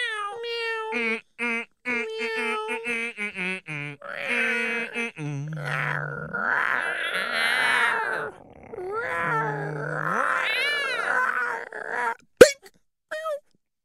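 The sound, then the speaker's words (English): Cat-like yowls and wails stand in for a jaguar being beaten. There are many drawn-out cries that rise and fall in pitch, with strained, moaning stretches, and a sharp hit cracks out near the end. “And what does a Jaguar sound like when it's getting beat on by Steely McBean?”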